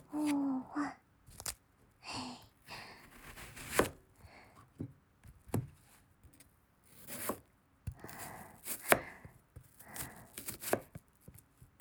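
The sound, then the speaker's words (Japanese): A knife chopping onions, with many crisp, sharp cuts in irregular bursts, quiet and close, separated by short pauses. “じゃあ切っていくんだけど、玉ねぎ4つもあるからちょっと大変だね。”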